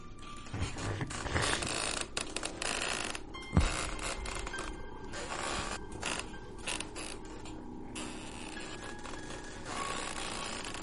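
A wooden hand loom for weaving silk creaks in a storehouse, making a faint, irregular run of creaks and mechanical clacks with one sharper knock near the middle.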